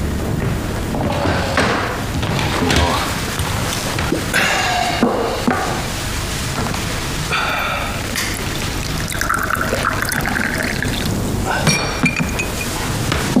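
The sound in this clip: Glasses clink together in a toast to a successful partnership, a few bright chimes over a steady, busy background.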